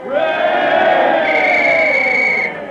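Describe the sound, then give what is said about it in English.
A restless crowd at a football game gives a sustained, loud roar of many voices shouting together. The noise holds steady for most of the stretch, then drops off sharply near the end. “The last half is about to start. The crowd is getting restless.”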